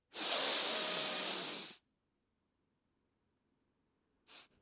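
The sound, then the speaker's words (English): A deep breath: one long, loud, hissing rush of air lasting over a second, then silence and a brief second puff of breath. “I just want everyone to take a deep breath with me”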